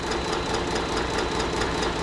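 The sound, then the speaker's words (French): Steady diesel engine drone from a 3,600-tonne frigate's four powerful diesel engines, a dense, continuous mechanical rumble with a constant level throughout and no talking. “4 puissants moteurs diesel propulsent les 3600 tonnes de l'Aconite à plus de 20 nœuds.”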